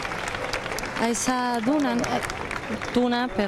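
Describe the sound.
Applause from a crowd greets a tuna music group that has just honoured the Virgen del Carmen, steady clapping running throughout with raised voices calling out loudly over it.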